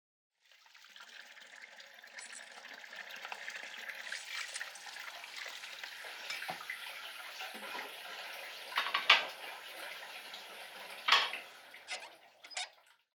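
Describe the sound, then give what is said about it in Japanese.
Running tap water and dishwashing at home: a steady, rushing wash of water with a few sharp clinks of dishware toward the end, and no voices. “後輩に洗い物をさせて、一人横になっていることに、後ろめたさを感じないのです”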